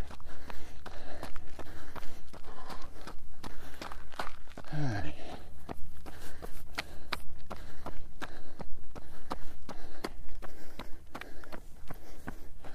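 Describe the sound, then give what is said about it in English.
Footsteps climb toward the top of a hill, with many even, rhythmic steps landing steadily one after another over a constant low rumble throughout. “As we climb to the top of the hill.”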